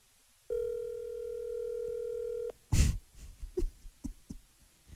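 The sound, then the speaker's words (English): A steady telephone dial tone holds for about two seconds, then cuts off. A series of short clicks and beeps follows as a call is dialed, with no voices. “You know, maybe I'll call him. I'll call him right now.”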